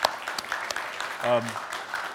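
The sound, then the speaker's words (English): An audience in a church claps briefly for the audience, a quick spatter of hands with a voice breaking in for a moment midway. “We want to hand clap for the church with that.”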